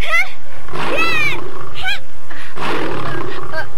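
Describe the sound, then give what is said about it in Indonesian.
A tiger roaring: loud, rough, snarling roars that come in a few heavy bursts with short breaks between them, harsh and strained throughout. “Kau mau apa jika aku membunuh harimau ini?”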